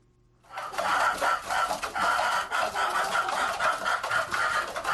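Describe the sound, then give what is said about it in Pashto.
About a hundred chickens are kept in an old mud house in a village in Gurbuz district, Khost. Their busy, overlapping clucking and squawks start abruptly and continue loudly throughout, with no talk. “کابو سل چرګان د خوست مرکز جنوب ته د ګربز ولسوالۍ د شیخانو کلی په هغه پخوانی خټین کور کې ساتل کیږي”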